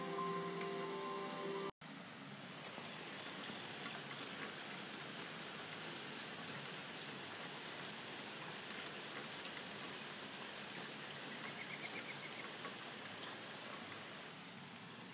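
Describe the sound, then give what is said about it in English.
Rain coming down in New Jersey, a steady, even hiss that holds throughout and stays quiet, after a short tonal sound at the very start cuts off. “That's the sound of rain coming down in New Jersey, on the east coast of the United States.”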